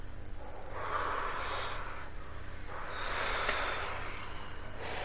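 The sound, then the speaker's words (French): Soft breathy blowing onto a fire under a heavy cauldron of water to fan the flames, two long faint whooshing blows rising and falling over a low steady hum. “Maintenant, soufflons sur le feu pour l'attiser.”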